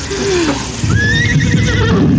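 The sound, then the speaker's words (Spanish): A horse whinnies as its rider reins it to a halt in the desert: one long, loud, quavering neigh that wavers in pitch and holds to the end. “tira de las riendas de su caballo, deteniendo la marcha”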